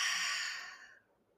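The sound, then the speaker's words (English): One deep breath exhaled through an open mouth in a breathing exercise, a breathy rushing hiss that starts strong and fades away over about a second, heard alone. “We're going to breathe through our nose for four counts. Open mouth, exhale.”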